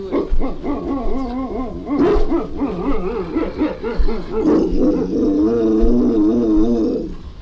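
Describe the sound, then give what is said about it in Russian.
Barking calls from a common crow imitating a dog: a continuous run of harsh, harmonic yelps with wavering pitch, loud and unbroken throughout, with no other sound. “Ну вот это сейчас лаяло. Это не собака лаяла, это лаяла обыкновенная ворона.”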